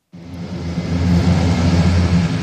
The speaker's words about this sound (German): Ein großes, graues Transportflugzeug mit lauten Propellern hebt ab.